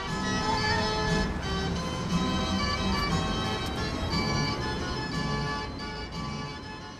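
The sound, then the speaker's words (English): A carousel at Zeum turns while families ride, giving off a dense, steady wash of sustained music-like tones. The sound holds an even level for the whole clip. “The first thing I noticed upon arriving from my walk from BART was the carousel, where families were enjoying the ride.”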